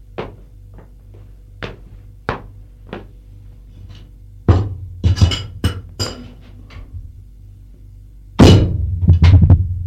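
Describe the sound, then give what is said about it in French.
A bottle of cognac and two glasses clink and thunk as drinks are served at a bar in a living room. Many sharp, irregular knocks sound, clustering into denser bursts mid-clip and near the end. “Une bouteille et deux verres. Retourné vers elle, il fait le service.”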